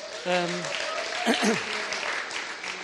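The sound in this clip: Audience applause in a church welcomes a speaker: steady, broad clapping runs throughout, with a few voices calling out over it.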